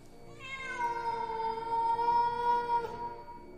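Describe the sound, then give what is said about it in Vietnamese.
A black cat meows once in a long, drawn-out, high wail lasting a few seconds. The cry is steady and eerie, fairly loud, and heard alone. “Vừa nói đến đây thì tự nhiên chúng tôi nghe tiếng mèo kêu đến rợn cả người.”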